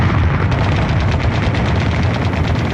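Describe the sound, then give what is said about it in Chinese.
Battle gunfire and explosions echo from a mountain, a dense, continuous roar with many faint cracks and bursts that never let up, steady and loud throughout. “他关掉了收音机，但激烈的枪声依旧。铁院长终于确信枪声来自于山上”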